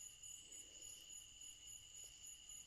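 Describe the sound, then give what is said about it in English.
Southern crickets chirp in a faint, continuous high trill, pulsing in a steady, regular rhythm with no voices present. “Can you hear the crickets? It's the song of the crickets. Southern crickets.”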